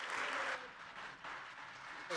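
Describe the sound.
Church audience applauding to welcome a visiting preacher at an anniversary service, a steady wash of clapping hands that eases slightly after the first half-second, with a voice speaking over it.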